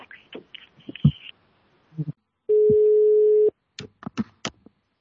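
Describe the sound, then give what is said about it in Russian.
The ringback tone of an unanswered phone call sounds once as a single steady, mid-pitched beep about a second long, with talk before and after it. “ну вот я позвонил, она там трубку не берет сейчас, бабушка”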